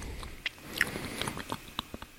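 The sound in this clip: Quiet chewing and biting of a marine-tasting food with a seaweed and algae flavour, heard as soft, irregular crunchy clicks over low background noise.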